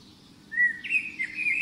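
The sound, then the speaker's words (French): Small birds chirp and twitter in a garden in the morning. A thin, high warbling starts about halfway through and continues steadily to the end, with no talk. “Et ces petits gazouillis qui font du bien, on est dans ces jardins ce matin”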